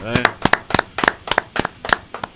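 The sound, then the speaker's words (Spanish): Clapping for a guest on an extreme metal music show: many sharp, irregular hand claps in quick clusters, with a brief voice at the start. “Un aplauso para Sergio.”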